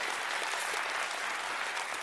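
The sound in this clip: Steady applause from a church audience welcoming a guest preacher. The clapping is a dense, even wash that holds at a soft level throughout, with no voices on top.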